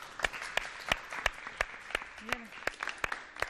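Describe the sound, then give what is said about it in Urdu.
Sparse applause from a studio audience on a television game show after a good target shot: sharp, distinct claps in a steady rhythm, about three per second, with a brief voice partway through. “بہترین نشانہ، تالیوں سے ان کی حوصلہ افزائی کیجیے۔”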